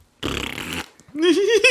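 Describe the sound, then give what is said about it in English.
A buzzy fart noise played from a phone by a grown man sitting in a car, a loud raspy blast of about half a second, followed by a short voiced sound. “Making fart noises and giggling to himself.”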